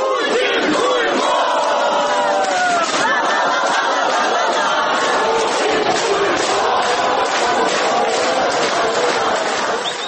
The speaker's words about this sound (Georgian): მოისმენთ, როგორც რუსეთის აგრესიით გაჯავრებული უკრაინელების შეძახილებს.